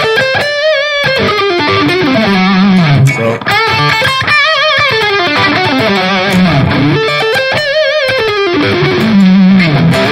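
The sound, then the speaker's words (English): Loud distorted electric guitar from a Les Paul fitted with a DiMarzio Bluesbucker pickup and an added resistor, playing sustained, smooth notes and sliding melodic lines without a break. A single short word is spoken at the start. “I actually pulled this out of another guitar I had. This is a DiMarzio Bluesbucker, and it sounds like this.”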